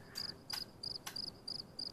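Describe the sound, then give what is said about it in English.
A cricket chirps by scraping a toothed ridge on one wing against the other wing, giving six short, high, evenly spaced chirps in a steady rhythm, faint and alone. “there are these more dense parts that are really some teeth that they scrape on the other wing and produce the noise”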